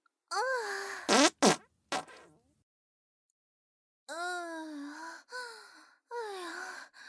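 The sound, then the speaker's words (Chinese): Wet farts: a quick run of short, sputtering blasts, a pause, then three longer, drawn-out squelching toots with a wavering, moaning pitch. “这次的屁声音湿湿的。”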